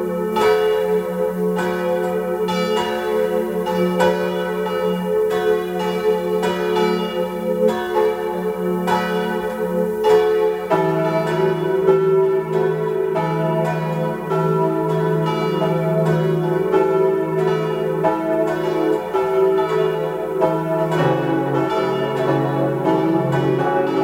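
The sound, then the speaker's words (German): Bells of the parish church of St. Nicholas in Grins near Landeck, in Tyrol's Upper Inn valley, several bells pealing in steady overlapping strokes that ring loudly and continuously with no voices. “Sie hören die Glocken der Pfarrkirche zum heiligen Nikolaus in Grins bei Landeck im Tiroler Oberinntal.”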